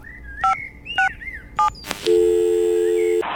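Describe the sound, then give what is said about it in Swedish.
Telephone dialing a number: three short key-press tones spaced evenly apart, then a sharp click and a steady electronic ringing tone lasting about a second. “Jag vet, jag måste ringa.”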